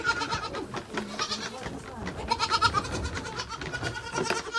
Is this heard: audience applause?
no

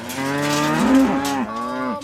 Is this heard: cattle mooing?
yes

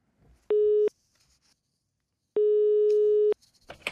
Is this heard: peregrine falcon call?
no

